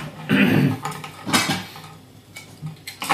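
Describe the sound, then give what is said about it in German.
Dishes clatter as a second plate is taken while working with a large melon pot: a few sharp clinks and knocks of crockery, loudest early on, then lighter scattered taps. “Ich werde dann mal noch einen zweiten Teller nehmen.”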